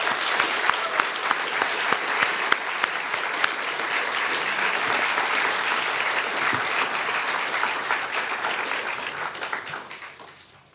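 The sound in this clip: Sustained applause from an audience at the Commonwealth Club of California in San Francisco welcoming a speaker. Dense, steady clapping goes on for about ten seconds, then fades out at the end.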